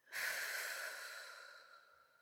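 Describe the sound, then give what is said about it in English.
A person breathing: a single soft, drawn-out breath that swells quickly, then slowly fades away, faint and breathy with no talking. “Just breathe with me, okay? In and out.”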